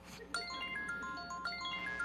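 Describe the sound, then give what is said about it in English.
An incoming FaceTime call rings on a phone as a bright, electronic ringtone melody of clear stepped notes. The notes sound in a repeating pattern at a steady, moderate level for about two seconds. “Oh, it's a FaceTime from my grandson in Colorado.”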